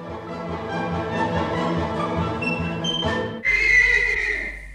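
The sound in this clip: A saddled horse neighs with a loud, high, quavering whinny that bursts in after a sustained tonal sound.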